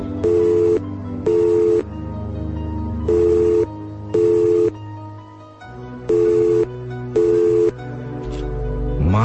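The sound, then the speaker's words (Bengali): Telephone ringing tone after dialing the number of a flat, three double rings at even intervals, loud and clear tones over a steady low background. “ফ্ল্যাটের নম্বর dial করল এবং শুনতে পেল ওপাশে ring হচ্ছে।”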